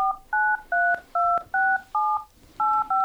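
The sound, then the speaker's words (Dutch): A phone number is dialed on a keypad as a quick, even series of eight dual-tone beeps, each short and clear. Small key-press clicks come between some of the tones. “Ik kan hem eerst even bellen.”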